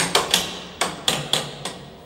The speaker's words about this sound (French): Alors ce qu'on entend là, c'est le sondage des barreaux. Pour voir s'il y a un barreau qui n'a pas été scié. Ah, donc on passe sur la on barre. On passe avec une barre de sondage.